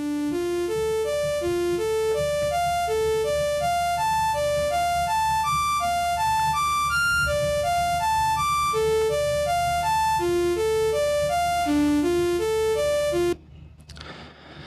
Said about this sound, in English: a synth, and we're going to play some arpeggios on it. I'm going to slow it down so that you can hear what it actually sounds like as an individual synth.